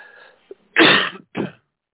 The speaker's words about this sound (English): I have a cough. I caught the last couple of days, so I'm just getting over it.